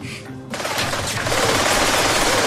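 Rapid gunfire from a VR shooting game bursts in after about half a second of near quiet, then continues as a dense, loud, unbroken clatter of shots to the end.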